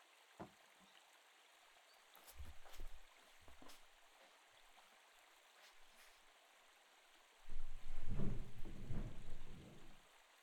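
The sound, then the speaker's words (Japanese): Hot water being changed in a wooden bucket: a few quiet splashes and sloshes early on, then a louder, sustained gush of pouring and sloshing water toward the end, with no talk. “桶のお湯を入れ替えますので、少々お待ちくださいね。”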